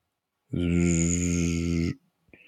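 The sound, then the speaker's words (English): A human voice imitating snoring: one long, buzzing, throaty snore lasting over a second. A brief faint sound follows just after it. “I think that's snoring, but sleeping.”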